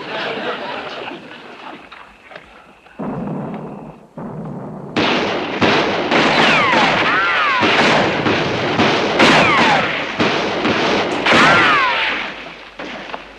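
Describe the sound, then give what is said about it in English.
Gunfire in a wartime battle: quieter rumbling gives way to a loud, dense barrage of overlapping shots and blasts with whistling streaks. The barrage continues steadily to the end. “What are you shooting for?”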